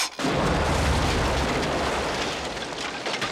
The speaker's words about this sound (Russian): Ух ты! Кажется, своим взрывом ты всех покойников разбудил.